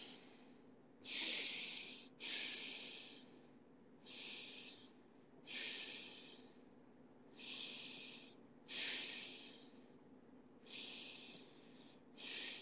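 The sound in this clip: Breathing through a stuffy, blocked nose: a series of loud, hissy snorting breaths recur roughly every second or two, each a rough nasal rush separated by near silence, with no talking.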